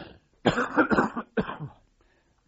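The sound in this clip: Throat clearing and coughing: two rough, fairly loud bursts, the first longer and broken into several harsh pulses, the second shorter, with quiet between and after.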